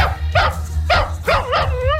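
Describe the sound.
A dog barks and yips in several sharp, high bursts with rising tones, sounding over a steady low hum.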